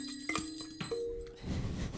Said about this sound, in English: So that's our approval bell.